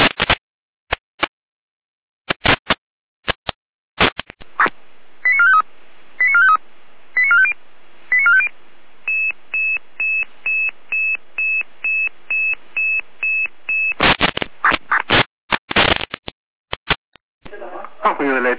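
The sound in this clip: German fire brigade radio alerting tones for a Saalfeld dispatch: a few short tone bursts, then a long, regular run of rapid identical beeps, with a dispatcher talking before and after.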